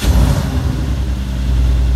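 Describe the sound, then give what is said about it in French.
Deep engine rumble from an Aston Martin Vantage 2+2 sports car with a 4-litre twin-turbo AMG V8 of 510 horsepower; a loud, steady low growl holds throughout, swelling slightly toward the end. “Dès le démarrage, on sent que ça rugit, que ça bouillonne sous ce petit capot. On a un V8 AMG de 4 litres biturbo qui développe 510 chevaux”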